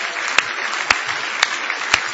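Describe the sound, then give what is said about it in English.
A church audience's applause rolls on as a steady hand-clapping wash, punctuated by four sharp, louder claps landing in an even, regular rhythm. “give Him a big hand clap of praise tonight.”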